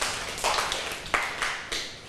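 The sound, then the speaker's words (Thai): Students clapping in a classroom after a science answer about magnets, several scattered bursts of hand claps that rise and fade, fairly faint, with no talk over them. “ปรบมือให้กับเพื่อนด้วยค่ะ”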